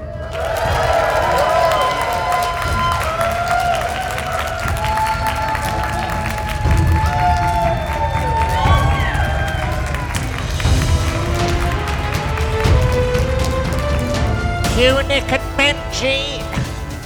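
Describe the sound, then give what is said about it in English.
A live audience at the Chicago TARDIS event cheers, whoops and applauds without pause, with many voices shouting over dense clapping, and a louder swell of cheering near the end. “Coming up in this special podcast, recorded live in front of an audience at the Chicago TARDIS event in the US of A.”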